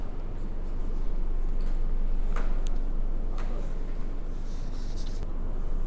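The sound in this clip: Pens or pencils scratching on paper as people draw a picture inside a square, a steady, continuous scratching with a low murmur of voices in the room.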